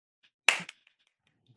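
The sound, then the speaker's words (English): A crisp finger snap rings out sharply, followed by a smaller click and then another snap at the very end, with silence between. “That might have been the greatest snip snap I've ever heard.”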